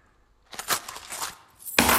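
Coins falling and clinking after a purse of money is dropped, a quick flurry of bright metallic chinks over about a second, followed by a louder noisy burst at the end.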